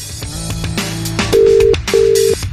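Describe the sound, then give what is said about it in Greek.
Ringing of an unanswered phone call: two steady, low ring tones in quick succession rise over a busy, noisy background. “Ούτε η Μαρία το σηκώνει”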